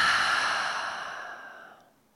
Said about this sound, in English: So let's do that, all of us together. Full inhale. And exhale.